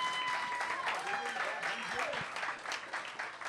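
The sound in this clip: An audience claps to welcome a guest at the Green Mill bar, a sustained wash of many hands clapping with a voice heard over it.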